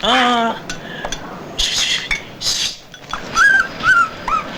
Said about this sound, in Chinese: 赶咗只狗得唔得啊？ 哎，自来狗富啊，唔赶得嘅。 快啲赶走佢啦！